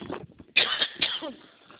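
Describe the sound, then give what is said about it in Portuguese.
A person chokes and coughs in two harsh bursts in quick succession, followed by a softer, fading tail. “Aí engasguei, desculpa.”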